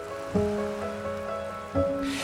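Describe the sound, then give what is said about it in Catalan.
A calm sea murmurs, a gentle continuous wash of water that stays soft and even, with a couple of slightly stronger swells. “m'apropo a la meva filla a cau d'orella i amb la remor d'un mar en calma li dic”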